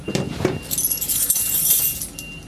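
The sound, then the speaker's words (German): Keys jangle in a bright metallic jingle that runs for about two seconds, following a couple of low handling thumps at the start. “Jetzt haben wir auch einen Schlüssel.”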